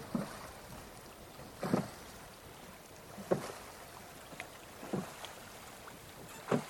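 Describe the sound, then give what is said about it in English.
Oars rowing a small boat on quiet water in Iran: five soft splashing strokes at an even, unhurried pace, each a brief faint swish separated by near-silence and light wind. “And the only sound that can be heard here is me rowing.”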